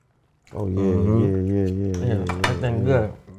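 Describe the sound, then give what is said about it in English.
Knife and fork clink and scrape against a plate beneath a steady, sustained voice. “Up in there, stick that fork in there, get that knife in there.”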